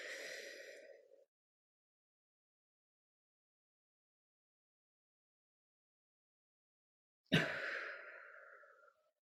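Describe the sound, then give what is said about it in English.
A deep breath is drawn in during a guided relaxation exercise, then held in about six seconds of silence. It is released in one long, audible exhale, soft but clear with no talking. “take a big breath and hold it for a few seconds and then release.”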